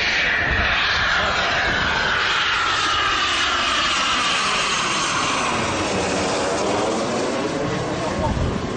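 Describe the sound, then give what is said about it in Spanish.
A Eurofighter combat jet passes overhead during practice flights at an air festival in Gijón. Its loud, steady roar fills the whole clip, with sweeping tonal whines shifting through the engine noise. “Este es el sonido del Eurofighter, un avión de combate de última generación”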